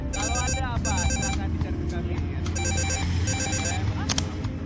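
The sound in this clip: A mobile phone ringtone for an incoming call, with bright, warbling electronic tones in four short repeating bursts grouped in pairs, over a steady low background rumble.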